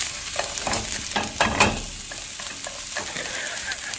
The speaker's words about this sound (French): Ce sont des oignons qu'on met à frire